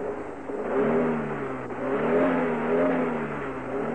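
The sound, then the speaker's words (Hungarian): A car engine revs as the driver gives it gas. The mid-pitched drone holds steady, swelling and dipping slightly in pitch and loudness, with no talk. “Adj egy kis gázt.”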